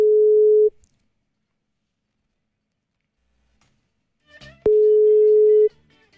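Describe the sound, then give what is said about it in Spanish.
Ringback tone of an outgoing telephone call to a listener, ringing out unanswered: a steady, low, pure tone sounds twice, first as a short burst at the start, then after a long silence and a brief click as a second tone about a second long. “Y se va la llamada.”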